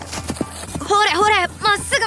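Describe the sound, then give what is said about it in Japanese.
Hooves of a horse carrying a load clip-clop in a few sharp knocks at the start. A loud, tonal voice follows and runs through the rest. “お父さんとお母さんの心配をよそにタニシは馬の耳元でうまく操りながら庄屋さんのところへ荷物を運んでいきました。”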